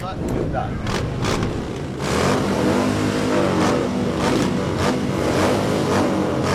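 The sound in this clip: Motorcycles revving at a bike gathering at a pub in Alice Springs, over ninety bikes for a world-record attempt, a loud, continuous engine roar with repeated throttle surges and voices mixed in.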